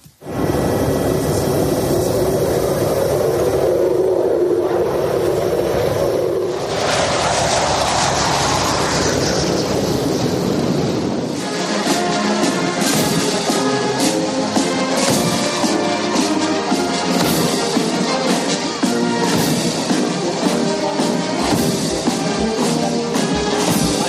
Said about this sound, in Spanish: Eran los sonidos del aterrizaje, de la llegada del Papa Francisco al aeropuerto militar de Lisboa